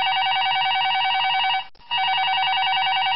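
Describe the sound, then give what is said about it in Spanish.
Telephone ringing with an incoming call in a radio studio: a loud, steady, warbling electronic ring that runs continuously, breaks off for one brief gap midway, then resumes. “Ya con muchísimo gusto, en breve voy a estar atendiendo la primera llamada.”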